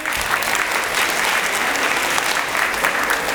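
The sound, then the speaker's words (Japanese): Loud, sustained applause for fourth-year students fills a school gymnasium, a thick continuous roar of many clapping hands that stays steady from start to finish. “体育館の窓が割れるぐらいの声で、せーの、4年生に拍手。”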